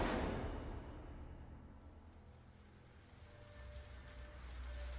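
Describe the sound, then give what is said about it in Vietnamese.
Heavy rain falling in Mai Châu, Hòa Bình, a steady, dense hiss of downpour that swells at the start, eases slightly midway and builds again toward the end, with no voices. “Cùng thời điểm đó, tại Mai Châu, Hòa Bình, trời đang đổ mưa lớn, tiếng sấm nổ rung chuyển cả đất trời.”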